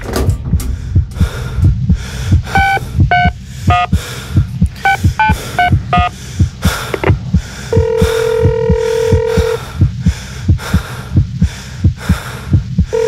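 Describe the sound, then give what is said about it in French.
Telephone ringing unanswered: short electronic beeps and tones, then a longer steady ringing tone in the middle, all over a loud, regular, heartbeat-like throbbing pulse, with no voices. “Putain, décroche, putain. Décroche, merde.”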